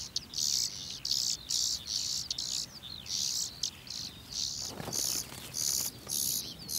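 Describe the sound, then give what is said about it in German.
High, thin, buzzy begging calls of hungry songbird chicks in a nest in a cereal field, repeated in many short, even bursts with brief pauses between them, fairly faint and alone. “Futter für die hungrig rufenden Kehlchen.”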